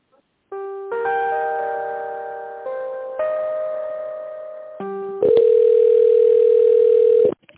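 Telephone tones play while a call is being transferred: steady electronic chords shift pitch in several distinct steps, then give way to a louder, sustained single tone that cuts off sharply.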